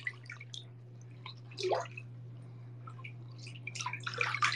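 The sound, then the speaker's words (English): Water drips into a bathtub during a soak, with scattered light plinks and small trickling splashes at irregular moments over a steady low hum. A slightly busier cluster of drips comes near the end, with no talking. “I have already washed my hair, so now I'm just vibing in the bathtub.”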